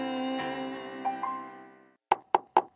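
Knocking on a door: a sustained harmonic tone fades out, then four sharp, evenly spaced knocks follow in quick succession, loud and clear.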